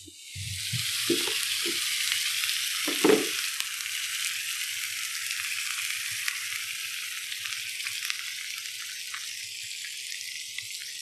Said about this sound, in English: This is going to be the drizzling with the sort of flash melted beef fat. So here comes Nick with his torture implement. He's got a big lump of beef fat. It's going straight in the top.